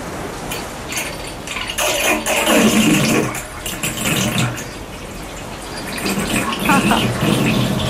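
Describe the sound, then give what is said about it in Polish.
Water draining from a bathtub, a steady rushing and gurgling wash that swells and ebbs over several seconds at moderate loudness. “To było takie spuszczanie wody z wanny.”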